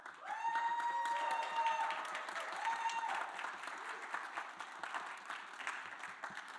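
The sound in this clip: A church audience applauds to welcome a newcomer, with steady, sustained clapping from many hands that fades gradually toward the end.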